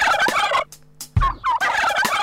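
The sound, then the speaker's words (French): A turkey gobbling in a few loud, rapid, warbling rattles separated by short pauses. “Cette petite dinde fait.”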